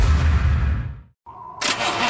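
A car engine starting: a deep engine rumble cuts off into a moment of silence, then the engine turns over and roars up into a loud, bright, steady run.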